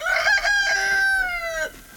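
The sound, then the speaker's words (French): A rooster crows once on a farm in the Ardennes where about twenty hens are kept. The single loud, drawn-out call holds a steady pitch, then sinks slightly and breaks off, with no voices. “Anne Abraham vient nourrir sa vingtaine de poules”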